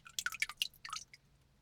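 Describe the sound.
Water drips and patters from wet hands lifted out of a bowl. A quick, irregular run of faint, bright drops and small splashes tapers off within about a second.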